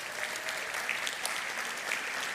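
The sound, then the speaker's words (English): Church audience applause affirming new elders, an even wash of clapping that holds at a moderate level across the short stretch. “We can give a hand for all of them.”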